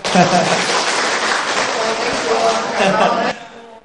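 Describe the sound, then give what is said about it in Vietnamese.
Audience clapping hands at a Buddhist teaching gathering in a dense, steady round of applause. A voice speaks over it, and the clapping stops abruptly near the end. “Quý tử vỗ tay cái ạ.”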